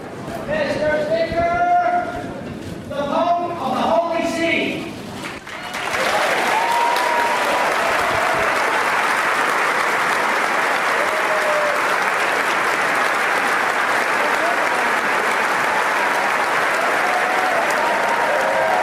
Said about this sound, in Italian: Avete sentito l'applauso, l'ovazione, l'entusiasmo?